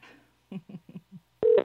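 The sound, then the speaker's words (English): A telephone being dialed: a few short, soft key beeps in quick succession, then one longer and louder tone. “Dialing that shit again.”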